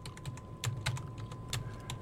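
Quiet typing of an email on a computer keyboard: many quick, irregular key clicks with a few slightly louder strikes, continuing throughout with no voices.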